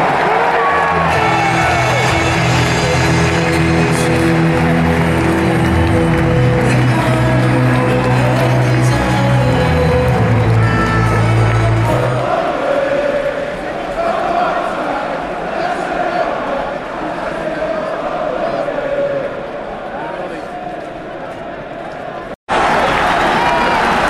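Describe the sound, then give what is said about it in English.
A stadium crowd at Old Trafford roars as Reading and Manchester United are welcomed onto the pitch. The cheering and shouting is loud and continuous, with a low tonal hum beneath it in the first half, and it cuts out briefly near the end. “Old Trafford, this is the theatre of dreams. The Emirates have made your first round. Will you please welcome Reading and Manchester United?”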